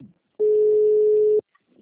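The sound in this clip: A call-waiting beep on a phone line during a call: a single steady, mid-pitched tone of about one second, flat and even, with brief faint fragments of sound before and after.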